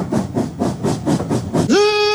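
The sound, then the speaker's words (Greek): A steam train pulls away: a quick run of about six rhythmic chuffs, then a loud steam whistle that sweeps up in pitch and holds a bright, steady tone to the end. “Στο βαγόνι μου και το τρένο ξεκίνησε.”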